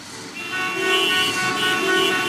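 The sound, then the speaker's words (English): Car horns honking over road traffic, a sustained blaring horn tone that swells in loudness twice, layered above a steady low rumble of motor vehicles. “Why be stuck in traffic when you could be outdoors?”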